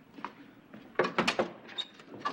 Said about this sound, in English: I want to know why you opened the door to just anyone.